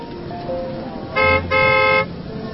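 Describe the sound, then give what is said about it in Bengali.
A car horn sounds two bright, steady honks, the second longer than the first, over a constant low rumble of vehicle and street noise. “গাড়ি আসতে বলে দিয়েছি, এক্ষুনি চলে আসবে।”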